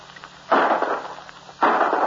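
Gunshots during a bird hunt: two sharp, muffled blasts about a second apart, each followed by a lingering hiss of noise.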